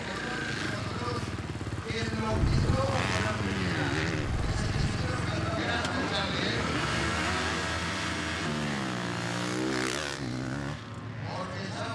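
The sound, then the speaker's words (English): A racing motorcycle engine revs and drones, its tone rising and falling in smooth sweeps as the throttle changes, staying fairly loud and continuous throughout. “Honestly, it sounds really good, mate. Also with the noise, because now the bike should be quieter, so you also get that feeling.”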